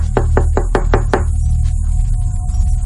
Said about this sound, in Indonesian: belum selesai aku di kamar mandi, ada yang mengetuk pintu kamar mandi.